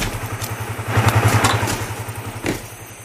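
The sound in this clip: A motorcycle stops as its rider turns off the light and gets off, outside an abandoned elementary school. The engine's low, rapid idle throb dies away midway, and a single dull thud follows against a steady hiss.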